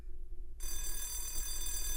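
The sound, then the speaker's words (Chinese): An electric theatre bell rings before a performance, its loud, steady, unbroken ringing bursting in after a short quiet start and continuing to the end. “正式演出那天，剧场的第一次铃声响起时”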